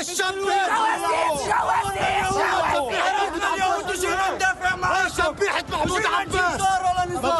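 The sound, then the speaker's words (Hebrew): Protesters shout at a demonstration in Ramla, many voices yelling loudly and continuously in a dense, rhythmic clamour of cries and calls. “כאן אנחנו שומעים מפגינים צועקים אמש ברמלה”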